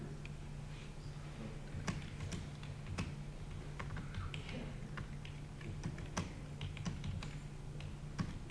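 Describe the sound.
Faint, irregular clicking of a computer keyboard as someone types to edit a wiki page, the key taps scattered over a low steady hum.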